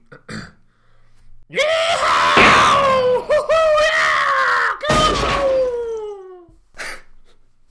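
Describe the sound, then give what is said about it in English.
A loud shouted Civil War cavalry battle cry, the Michigan yell: long hoarse drawn-out yelling in two sustained bursts, the second trailing off as its pitch falls. “Now then, you're probably thinking to yourselves, listeners, what is a Michigan yell? Well, it's,”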